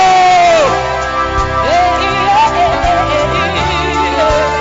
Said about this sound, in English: stand to your feet. Give the Lord a shout and let us welcome Bishop Edwin Morgan Ogo.